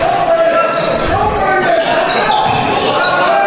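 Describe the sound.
A basketball is dribbled on a court during a game. Low bounces sit under loud, steady crowd noise, and sharp sneaker squeaks cut through.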